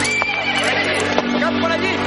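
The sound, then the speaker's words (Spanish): In a medieval adventure film, a horse neighs with a bright whinny as a knight rides off into the forest. The hooves clip-clop underneath at a steady pace throughout. “Lanzarote cabalga en dirección contraria, adentrándose de nuevo en el bosque.”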